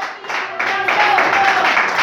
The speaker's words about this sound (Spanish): Recibe, Señor, este aplauso para ti, Señor.